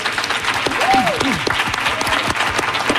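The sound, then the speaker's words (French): About a hundred people in the Radio-Canada atrium in Montreal applaud in dense, steady clapping, with a brief voice rising above the crowd. “Les gens que vous entendez, c'est parce qu'aujourd'hui, on vous présente une émission spéciale d'apéro public du dimanche devant une centaine de personnes rassemblées dans l'atrium de Radio-Canada à Montréal.”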